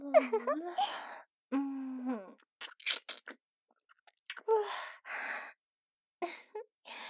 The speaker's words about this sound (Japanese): すっごいがっつい食べるキス、やらしい。